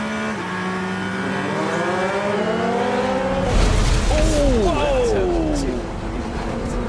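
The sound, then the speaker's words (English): A damaged Porsche race car roars down the Mulsanne straight. A steady engine whine gives way to a louder stretch in which the pitch climbs and drops several times, like repeated gear changes. “We have a big mess of a Porsche running down the Mulsanne straight, and that is not going to get to the end of the lap.”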